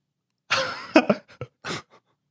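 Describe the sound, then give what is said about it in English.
Throat clearing caused by an allergic reaction: a rough, voiced rasp followed by a few short, harsh bursts that trail off into a faint final catch. “You're just scratching the allergenic reaction into the back of your throat.”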